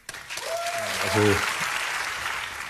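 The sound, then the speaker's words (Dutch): Audience applause after a speech about the war in Ukraine, a dense, steady wash of clapping that swells after the opening moment and stays full, with a voice speaking briefly over it. “Ik zit door het applaus al heen te praten, maar ze kregen behoorlijk applaus.”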